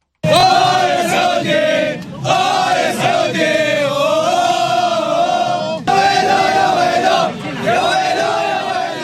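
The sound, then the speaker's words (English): World Cup football fans cheering and chanting in Russia before the opening match: loud, sustained massed voices in rising and falling chant-like phrases, with short breaks near the second and sixth seconds. “World Cup excitement has begun. That's the sound of fans cheering before the games got started on Thursday.”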